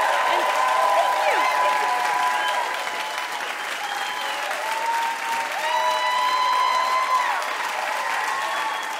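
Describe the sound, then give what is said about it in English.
Studio audience applause for Ellie Kemper at a live quiz show taping: dense, steady clapping that holds for the whole stretch, with a voice heard over it. “Big hand for Ellie Kemper, everybody.”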